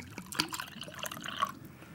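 Organic pomegranate juice being opened and poured, a soft, faint trickle of liquid running steadily for about two seconds.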